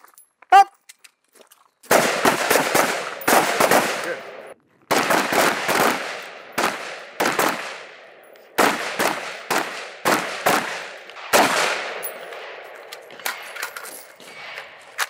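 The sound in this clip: Gunshots in a speed reload shooting drill: a single shot, then four rapid strings of loud, sharp reports, each string broken by a short pause.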